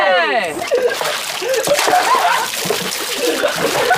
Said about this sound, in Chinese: 哎，你们几个这样洗澡，当心感冒哈。